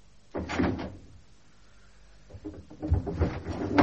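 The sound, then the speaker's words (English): Windows being opened: a scraping, rattling burst near the start, then after a quiet pause a longer run of clunks and scrapes that builds toward the end. “Someone open these windows immediately.”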